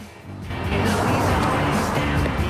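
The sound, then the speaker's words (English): A silver convertible sports car drives off, its broad rushing engine and road noise swelling in after a quiet start and then holding loud to the end. “Gale pulls up in a convertible and Doofy jumps in. He kisses the grinning reporter. They drive off in her silver sports car.”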